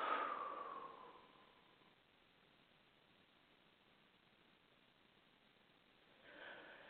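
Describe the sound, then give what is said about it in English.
Slow breathing during a guided relaxation exercise: a soft, airy breath fades away over the first two seconds, a long near-silent pause follows, then another quiet breath begins near the end. “Inhale. Exhale.”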